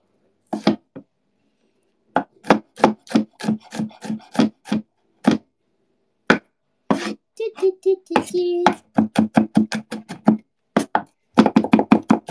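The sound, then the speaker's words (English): Garlic minced with a knife makes many crisp chopping strikes in quick runs broken by short pauses, the rhythm uneven and speeding into a dense flurry near the end. “And you'll mince that garlic. Mincing garlic.”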